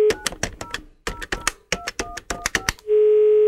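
A premium-rate phone number is dialed as many quick touch-tone beeps in an uneven rhythm, with a short gap early on, followed by a steady, sustained line tone.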